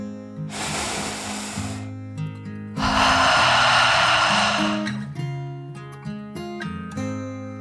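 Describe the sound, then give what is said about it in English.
A deep breath drawn in and let out, voiced as a crocodile's slow dragon breath in a calming bedtime story: two long, airy rushes, the second fuller and louder, over soft sustained tones. “finally, the crocodile took one more deep dragon breath. In and out.”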